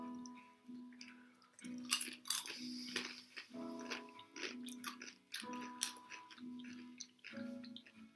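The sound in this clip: Chewing of vegetable crisps, parsnip among them, with faint crunches and moist mouth sounds repeating at an uneven pace.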